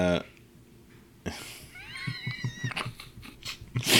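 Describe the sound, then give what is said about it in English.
A cat lets out a drawn-out, wavering meow in the middle, rising and bending in pitch, while people talk briefly just before and after it. “That's a cat.”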